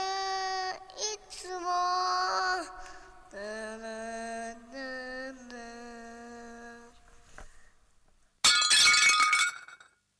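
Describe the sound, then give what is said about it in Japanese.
A plate is dropped and shatters in the morning before work, one sharp, bright crash of breaking crockery near the end, following a long sung melody. “出勤前の午前8時、妻がお皿を割った。”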